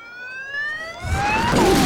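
Police car siren as the cars head towards a scene. A loud tone slides steadily upward in pitch, and a rough, rumbling noise builds underneath toward the end.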